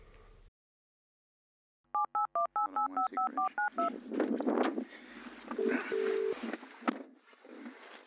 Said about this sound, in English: We got a voicemail. Let's check that out now.